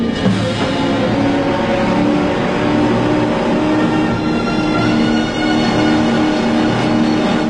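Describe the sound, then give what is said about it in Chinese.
A speedboat engine with a shot-through fuel tank races toward an island shore, producing a loud, continuous droning roar with a steady low hum that holds throughout, dipping slightly near the end. “已经被打爆油箱的快艇冲到小岛的岸上”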